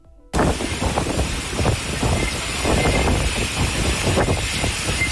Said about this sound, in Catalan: I el que senten és el so de la tempesta d'ahir al Coll